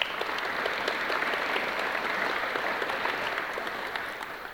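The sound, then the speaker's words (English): An audience in Melbourne claps to welcome a panel onto the stage for a public discussion on retirement incomes. The applause is a steady, moderate patter that eases slightly toward the end. “Ladies and gentlemen, would you please put your hands together to welcome our panel.”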